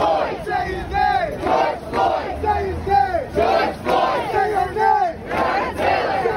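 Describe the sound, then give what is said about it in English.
New York street protesters chant in loud unison, their voices rising and falling in a steady, repeated rhythmic pattern of shouted phrases, with the crowd's roar filling the gaps between lines. “By summer, the sound of our lives became protest and rage.”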